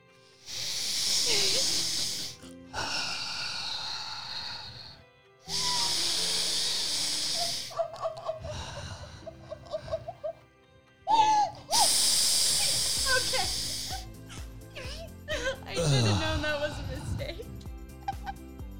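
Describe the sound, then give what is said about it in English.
Deep breaths taken together: several long, loud, airy inhales and exhales that rush and hiss, with brief voices and laughter between them. “you guys take some deep breaths with me before I finish out and get mindful. We're going to do 3 deep breaths.”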